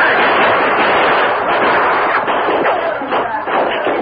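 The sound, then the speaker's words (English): Gunfire in a dark tunnel: a loud, sustained barrage of shots that blends into a dense, continuous roar with no clear gaps between reports. “We'll shoot our way through the tunnel. Right. Here's an extra gun. That bullet hit the gun. We're ready if you want gunplay. We gotta get past those men. Come on, boys. Open fire.”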